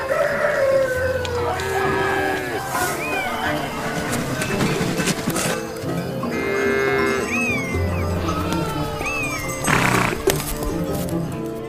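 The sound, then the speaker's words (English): Rooster crowing and other livestock calls rise from an animal display at a city harvest fair, with several crows poking through a dense, constant din of animal noise and people talking. “We are herded to see the livestock.”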